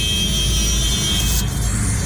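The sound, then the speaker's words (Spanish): Jammed road traffic under a bridge on the Vía Daule, a dense, steady rumble of engines and tyres that holds level and loud without a break. “apenas acá en la vía Daule, debajo del puente. Ya. Así está el tráfico.”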